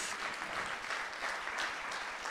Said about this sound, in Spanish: Dele un mejor aplauso a Cristo el Señor, nuestro Dios.